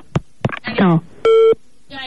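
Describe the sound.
A telephone line tone after the caller hangs up, a single short steady beep set between bursts of talk on either side.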